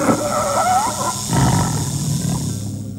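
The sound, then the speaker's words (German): A leopard roars and snarls as it fights a snake in a staged jungle scene. The loud, rough growling roar runs without a break for the whole stretch. “Als Subu die Augen wieder öffnete, sah er den Leoparden mit der Schlange ringen.”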